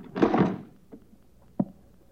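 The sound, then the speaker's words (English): Locked leather satchel being forced open, heard as a short, harsh cracking burst followed by two faint, dull knocks. “It's just a satchel, that's all. It's locked. Where's the key? I don't know. I lost it. Break it open.”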